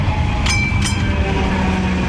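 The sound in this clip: A tram arriving at a stop: a steady, loud rail rumble, with two brief, bright high-pitched squeals close together near the start and no voices.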